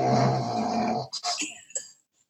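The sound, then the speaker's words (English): A dog snorting: one long, loud, rasping snort with a buzzy, snore-like tone, then several shorter, broken snuffles that trail off into quiet. “Sorry, that was not me. That was my dog.”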